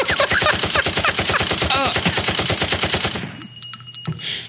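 A gunfire sound effect of rapid automatic fire rattles out in one sustained, loud burst of many closely spaced shots for about three seconds, then stops abruptly into near quiet.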